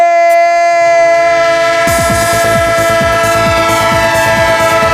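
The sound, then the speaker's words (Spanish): A train sound effect in a radio jingle: a loud, sustained horn chord sounds alone at first, then rhythmic clickety-clack of wheels over rail joints joins beneath it and repeats steadily to the end. “¡Tren de Radio Estadio! Claro que sí, el tren de la radio, el tren de Onda Cero, el tren que llega a su parada final”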